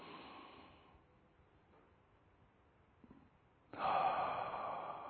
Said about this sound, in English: take a deep breath, hold it, good, one more time